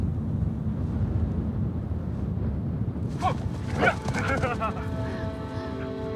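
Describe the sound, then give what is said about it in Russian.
A dog plays, giving a few short yips and barks followed by whimpering whines, over a steady rushing noise. “играет с собакой.”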